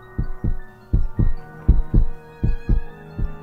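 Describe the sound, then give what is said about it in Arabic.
A person's heartbeat, felt while standing with an ear pressed to a door: a steady, low thumping lub-dub of about five double beats at an even pace, with a faint hum behind it. “حطيت ودني على باب الأوضة مش سامع حاجة، مش سامع غير يا دوب دقات قلبي.”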